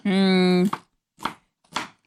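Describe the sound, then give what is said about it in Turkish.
Knife chopping vegetables coarsely on a board while preparing summer tarhana soup: three sharp, evenly spaced thuds follow a brief stretch of voice at the start. “Şimdi hepsini böyle iriden doğrayalım.”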